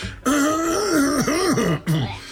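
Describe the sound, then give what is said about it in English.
Throat clearing with a voiced, groaning tone: one long rumbling rasp with a wavering mid pitch, then a short second push after a brief break. It is loud and heard alone, with no talk. “I had to clear my throat.”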